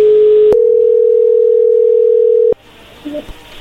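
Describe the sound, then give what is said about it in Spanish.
Telephone ringback tone as a call rings through: a steady, loud, continuous pure tone lasting about two and a half seconds. It cuts off abruptly when the call connects, leaving faint line noise. “A ver, y entra ahí la llamada.”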